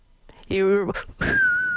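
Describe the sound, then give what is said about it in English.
A person whistling holds a steady, high, clear note after a brief voiced sound. “Your whistling abilities were so good.”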